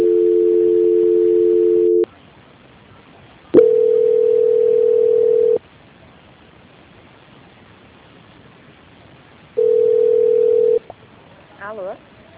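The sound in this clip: Telephone tones play while a call is being transferred: three steady, mid-pitched tones of varying length are separated by long quiet gaps, and a short warbling tone comes at the end.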